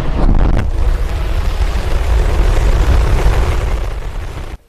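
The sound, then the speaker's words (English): A SpaceX Starship rocket launching from Texas, a loud continuous roaring rumble with dense crackle that holds steady throughout before cutting off abruptly at the end. “That is SpaceX's Starship taking off from Texas”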